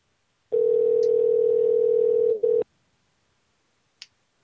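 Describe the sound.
A telephone dial tone plays as a steady mid-pitched hum for about two seconds, then cuts off abruptly with a click. Silence follows, broken by one faint short click.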